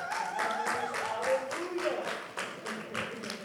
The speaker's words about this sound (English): thank God you guys clapped, I was able to drink water.